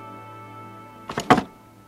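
A chair bumped as someone sits up beside it: a short, faint clattering knock made of a few quick hits, set against a quiet background hum.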